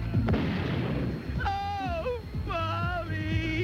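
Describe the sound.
A sharp pistol gunshot in a game of Russian roulette, a single hard crack followed by a noisy tail, then wavering high tonal sounds over a steady background.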